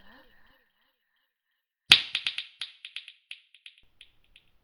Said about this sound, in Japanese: 指を鳴らす音が聞こえたら、あなたの催眠は解けるわ。